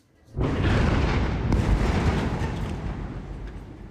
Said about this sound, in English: This was the scene after an airstrike in Gaza City.